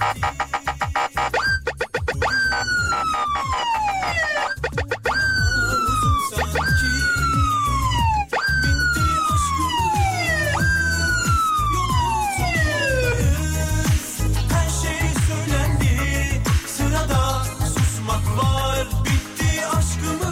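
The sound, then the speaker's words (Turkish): An emergency vehicle siren in Maltepe, Istanbul traffic wails loudly in repeated falling sweeps, about five long descending tones, over a continuous low rumble. Later the sweeps give way to dense, steady noise. “Maltepe'ye bir siren alalım. Alın bakalım.”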